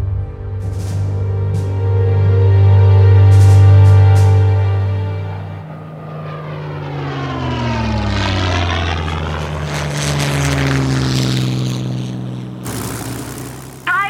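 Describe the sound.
A propeller aircraft droning in flight in 1940, its engine loud and steady at first, then swelling and shifting in pitch as it passes. A burst of rushing noise comes near the end.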